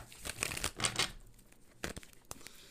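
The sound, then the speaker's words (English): A deck of cards is shuffled, a fast crackling riffle followed by a few soft, quieter taps and rustles, all fairly faint. “get another good shuffle.”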